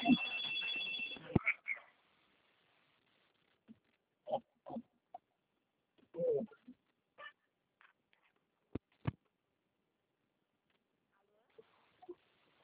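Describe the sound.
A telephone ring sounds briefly at the start as a bank call is put on hold for transfer, followed by scattered faint clicks and quiet gaps.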